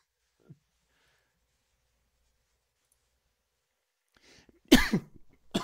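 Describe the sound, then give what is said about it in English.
Someone coughs after choking on their own spit. Near silence gives way to a short, sharp burst of coughing and throat-clearing, followed by a smaller cough at the end. “As I'm choking on my own spit here.”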